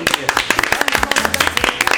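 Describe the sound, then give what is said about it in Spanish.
Clapping from a small group: many quick, irregular claps, fairly loud and mixed with people talking. “Aplauso.”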